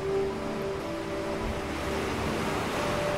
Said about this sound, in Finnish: Kuulet rytmikkään äänen, kun aallot hakkaavat rantaa.